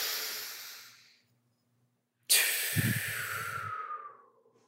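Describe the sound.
Deep breathing during a belly-breathing exercise: a long, airy breath fades out, a silent pause of about a second follows, then a sudden loud breath rushes in with a low breathy rasp and slowly tapers away.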